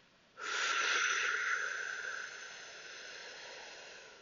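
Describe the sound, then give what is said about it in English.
A deep breath drawn in during a guided breathing exercise: a long, airy inhale that starts abruptly and holds steady for nearly four seconds, fairly soft, with no talk. “Taking another big deep breath in.”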